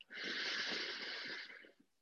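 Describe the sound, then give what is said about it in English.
A long, deep inhale during a guided grounding meditation, a steady, soft breathy hiss lasting over a second before tapering away. It is faint and heard alone. “Take a deep breath.”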